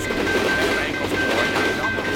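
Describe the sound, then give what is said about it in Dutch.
Steady, loud rumble and metallic clatter of a train passing a level crossing, the second of two trains in a row, holding an even level throughout the short stretch with no break. “Oh, daar komt hij al. Oh, jongen, we hebben wel pech. Twee treinen achter elkaar.”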